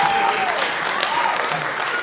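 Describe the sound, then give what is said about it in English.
An audience at a speech breaks into loud, continuous applause, a dense, even wash of clapping with a voice faintly audible over it. “I don't know why you're clapping.”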